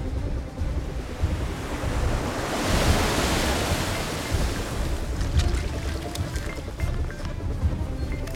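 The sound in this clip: Ocean waves surge around a tall rock as a continuous rushing roar of surf with wind noise. The sound swells in the middle, then settles into a steady wash, and there are no voices.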